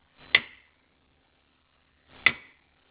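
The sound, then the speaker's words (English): The mechanical relay in an X10 Super Socket clicks as it switches. Two faint, sharp clicks, about two seconds apart, stand alone in silence. “Now normally, a functioning X10 Super Socket uses a mechanical relay to turn on and off and sounds something like this, a single click.”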